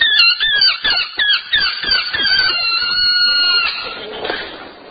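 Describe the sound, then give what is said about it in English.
Squeaking of air let out through the stretched neck of a balloon: a high, warbling squeal that breaks into many rapid pulses at first, then draws out into a more sustained whine that fades toward the end. “can you get this balloon to make any kind of noise?”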